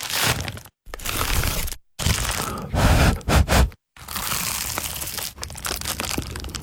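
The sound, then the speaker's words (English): Crunchy bites into an award-winning homemade pie give loud crackling, crushing bursts of brittle pastry. Several sustained crunches are split by brief silent pauses. “that was the sound of an award-winning dad's pie. Your mouth can take it from here.”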